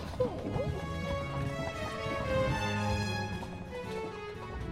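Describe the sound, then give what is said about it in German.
Clip-clop of horse hooves as a carriage arrives on cobblestones: many hoof strikes in a steady, even rhythm with sustained tones running underneath throughout. “Die Kutsche hielt in der Fishemble Street.”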